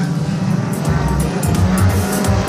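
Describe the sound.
Race cars driving on a track make a continuous engine roar with a high, buzzing whine that swells and dips slightly but never stops.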